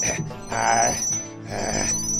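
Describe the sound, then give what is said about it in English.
Incoming call ringing on a spaceship's auxiliary comms, two electronic ringing pulses over a thin steady high tone, moderately quiet. “It's just the auxiliary comms. The aux comms? Wait, are we getting a call? Oh, shit, I think we are.”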